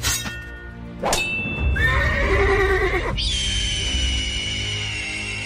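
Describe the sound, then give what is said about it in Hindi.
Horses neigh at a museum's horse display: a sharp metallic clang, then a long, shrill, wavering whinny that falls in pitch, followed by a high ringing tone that lingers to the end. “Royal Armouries Museum Leeds میں تشریف لائیں اور گھوڑوں کے کرتب بازوں کی نمائش”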